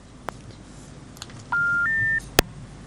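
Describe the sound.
Telephone tones as a caller's line drops: a steady electronic tone steps up to a slightly higher pitch for about half a second, then a sharp click sounds, with a few faint blips before it over low background noise.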